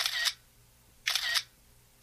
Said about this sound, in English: The advent of smartphones, one of which is responsible for that cute shutter sound you just heard, ushered in an era, still going strong, where people can photograph anything, anywhere.